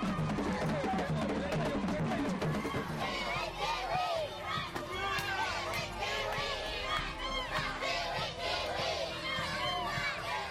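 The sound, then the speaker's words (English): Village children cheering and chanting a visitor's welcome at the school in Konge: many overlapping high voices shout together in a loud, continuous, excited hubbub. “walking in there and hearing the kids chanting your name”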